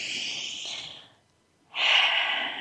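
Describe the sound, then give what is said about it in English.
A deep breath during a guided relaxation exercise: a long, hissing inhale of about a second, a short silent hold, then a stronger, breathy exhale that is louder than the intake. No talk is heard. “Another big breath.”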